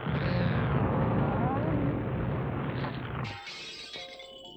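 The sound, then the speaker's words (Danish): A kitchen oven cracks and bursts apart: a loud, rough, sustained rumbling roar that suddenly breaks off into a scatter of bright, shattering, clattering debris trailing away. “Men hør. Ovnen er ved at revne. Pas på. Den springer nok snart i luften. Lad os hellere komme væk i en fart, før det siger bang.”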